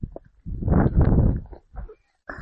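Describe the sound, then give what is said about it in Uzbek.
A donkey walks on the ground, its hooves giving muffled, irregular thuds in a few uneven bursts separated by short pauses. “Mana bunday bir xil paytda eshakka mindirib o'zim maktabga olib borib kelaman.”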